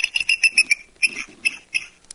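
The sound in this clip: A person's voice imitates a bird call with a rapid series of high, squeaky chirps. The chirps come in quick bursts separated by brief pauses, with no spoken words.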